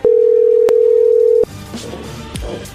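A telephone dial tone after a dropped call sounds as a loud, steady, unbroken tone for about a second and a half, then cuts off abruptly, leaving faint mixed noise.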